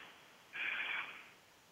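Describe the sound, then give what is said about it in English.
Breath blown into a stone during a guided breathwork session gives one soft, breathy rush of air lasting under a second, rising quickly and fading, faint and alone. “And I'm blowing into a stone for you.”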